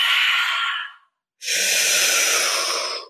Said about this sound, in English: Exhale. Almost done. Last push.